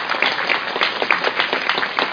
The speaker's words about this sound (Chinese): 哇，哈利路亚，给掌声耶稣啊。